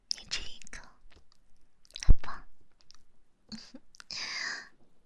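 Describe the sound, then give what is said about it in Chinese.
A person chewing food while eating, with moist, crunchy bursts of chewing separated by short pauses and one sharp click partway through. “你一口我一口，好不好？为了防止你吃的太快，就我吃一口。”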